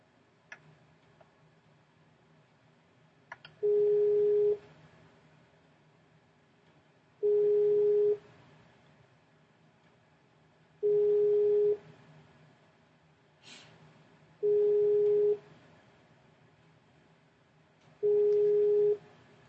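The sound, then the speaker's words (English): Ringing tone of an outgoing Skype call: five evenly spaced, steady tonal bursts, each about a second long, separated by quiet gaps of a few seconds, fairly faint against low background noise. “Let me get Diedrich back on the Skype. Because he hung up.”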